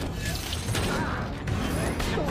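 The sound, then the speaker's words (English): A battle droid slams into a cell door in a fight scene: a few sharp impacts cut through dense mechanical whirring and rumble. “One of the droids slams into a cell door.”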